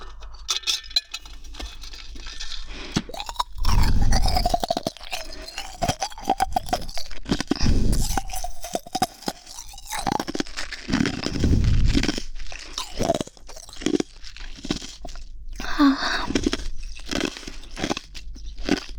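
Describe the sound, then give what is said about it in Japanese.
Ice being crunched and chewed in the mouth, heard as several loud, gritty crunching bursts with crackly grinding between them and short quieter gaps. “氷を食べる音を披露したいと思います。”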